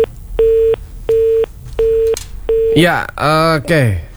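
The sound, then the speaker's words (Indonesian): After a call is cut off, the telephone line gives four evenly spaced, steady mid-pitched beeps of equal length. Then a person starts talking loudly over the line. “saudara pendengar, kita terputus dan kita masih mencoba ya untuk menghubungi kembali Bapak Yudi Cahyono”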